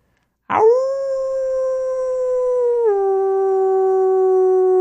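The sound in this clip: A person imitates a wolf howl with one long, loud, sustained tone that steps down in pitch about midway and holds steady to the end, with no other sound.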